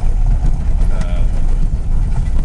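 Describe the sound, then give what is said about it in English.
A car engine drives down a bumpy track, a loud, low, steady rumble that holds through the whole moment. “I've just automatically decided to drive down the bumpy track that I said that I wasn't going to drive.”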